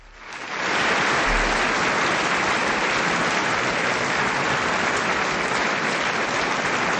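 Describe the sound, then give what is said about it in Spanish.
Audience applause swells within the first half-second into a dense, even wash of clapping that holds at a loud, steady level for about seven seconds, with no voices over it. “y nos vamos con unos aplausos.”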